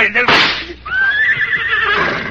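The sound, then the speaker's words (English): A horse gives a long, shrill, wavering whinny that drifts slightly downward in pitch, following a brief loud burst at the start, with a person's voice present around it. “The horse! He's run away, the horse, to the jungle!”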